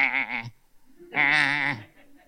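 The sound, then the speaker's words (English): A human voice imitates sheep bleating, recalling sheep in a field at a neighbouring farm: two nasal, wavering bleats, the first short and the second longer and louder, with a brief pause between them. “there was a field at the farm next door, and there were a bunch of sheep, just like,”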